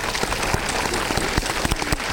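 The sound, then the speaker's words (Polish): Audience applause for an event organizer at a gathering in Poland: a fairly soft, dense patter of many hands clapping steadily, with a few sharper single claps standing out. “Bardzo proszę o brawa dla pani Marty.”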